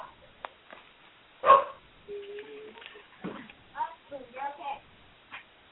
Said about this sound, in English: Unfortunately, that was my dog. It's like, yes, that was my daughter's dog.